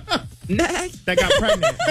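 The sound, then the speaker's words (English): A voice imitating a cute horse with a British accent makes short, wavering, bleating whinny-like sounds. A brief burst is followed by a longer, chuckling run of warbling vocal squeals. “Now do a cute horse with a British accent.”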